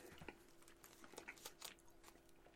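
Someone chewing a Snickers bar with peanuts, faint and close, with many small crunchy bites and soft crackles in an irregular rhythm.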